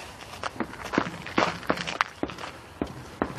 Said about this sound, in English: So here I am, walking.